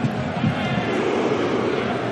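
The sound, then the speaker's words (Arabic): Norwegian football fans cheering in the stands at a World Cup match, a dense, steady crowd roar that holds at an even level throughout, with a voice speaking over it. “شوف الحركة الشهيرة تشجيع الأشهر هنا في هذا المونديال للجماهير النرويجية.”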